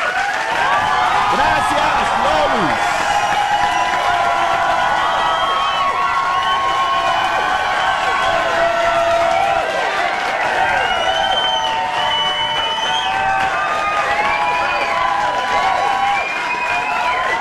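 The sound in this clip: A crowd behind a glass window cheers, shouts and applauds in welcome, a continuous loud din of many voices with whoops and claps throughout.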